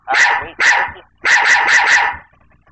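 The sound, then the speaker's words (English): A puppy barks, loud and high-pitched: two separate yaps, then a quick run of about four more, with nothing else heard after them. “I'm talking to my puppy dog.”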